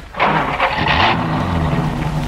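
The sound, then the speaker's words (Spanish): A car engine with a recently rushed carburettor repair cranks while flooded and fails to start, giving a steady, loud whirring churn for about two seconds that never catches. “No insista con el arranque. Se va a quedar sin corriente. El motor está ahogado.”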